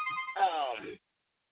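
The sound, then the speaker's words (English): A mobile phone ringtone sounds briefly, a bright tonal melody of warbling notes that lasts under a second and then stops abruptly. “Oh, I know my phone finna start. Prioritizing. Hold on, Pastor.”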